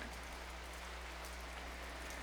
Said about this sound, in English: Summer showers. A one-room mountain cabin at the edge of a wildflower meadow. A world washed clean.